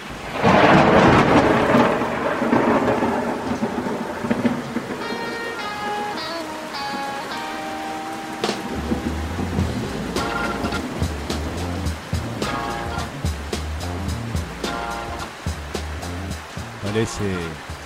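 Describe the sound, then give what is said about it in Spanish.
Thunder rumbles heavily at the start, followed by a steady wash of rain as a storm sets in, with other tonal sounds layered over it. “Parece que se vino la lluvia, ¿eh? Se vino nomás.”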